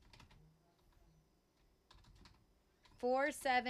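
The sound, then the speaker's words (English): Light typing on a computer keyboard into a chat: a few soft, scattered clusters of key clicks, with a voice speaking at the end. “Can you type this in the chat real quick?”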